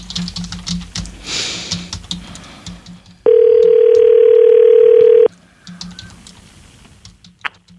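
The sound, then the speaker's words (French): A steady telephone dial tone sounds as a number is about to be dialed. It holds at one even pitch for about two seconds, with scattered soft clicks like keyboard taps before and after. “On compose à l'instant.”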